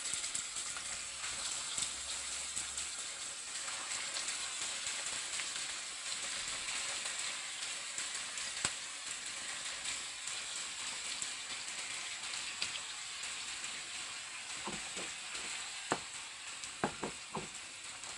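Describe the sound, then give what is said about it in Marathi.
Marinated chicken wings frying in hot oil give off a steady, soft sizzling hiss, with scattered sharp pops that cluster more densely toward the end. “तेल गरम झालेलं आहे, आता marinate केलेले wings fry करायला घेऊ.”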